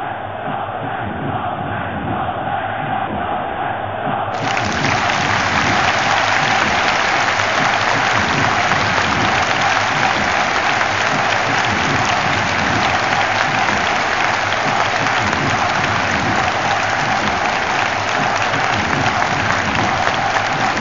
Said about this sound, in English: Listen to the crowd.